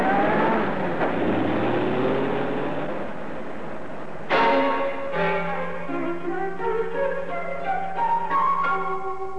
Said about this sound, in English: Drives away.